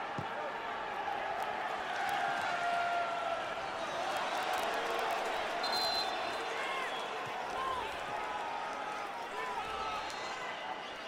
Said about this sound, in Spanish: Y la porra de Tigres empezando a animar a los suyos.